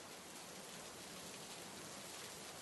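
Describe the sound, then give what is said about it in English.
Steady rain falls outside a London hotel room at night, an even, faint hiss of drops with no breaks. “The rain gets stronger as you close your eyes.”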